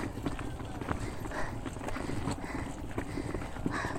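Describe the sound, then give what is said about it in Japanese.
Suitcase casters roll along a gravel path, giving a continuous gritty crunch and rattle with rapid, uneven clicks of wheels over loose stones, steady and fairly loud throughout. “これこのキャスター持つかな 今砂利道歩いてるんですけど大丈夫かな”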